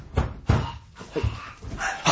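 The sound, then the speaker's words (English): Knocking on a door, a few heavy, dull thuds spaced irregularly with quiet gaps between them, alone without talk. “What's that? Why is he knocking at the door?”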